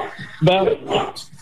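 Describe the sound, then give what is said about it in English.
A dog barks and yips a few times during a phone call, close among a man's speech and fairly loud. “kind of dog you got”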